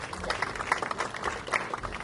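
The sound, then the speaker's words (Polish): Applause from guests at a ceremony marking a county's 15th anniversary in Poland. The clapping is moderately loud and uneven, swelling in small bursts rather than holding a steady roar. “Wielkie brawa, drodzy Państwo.”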